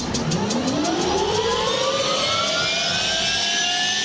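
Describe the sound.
Jet engine spooling up toward 62% N1: a loud, continuous roar with whining tones that climb steadily in pitch throughout.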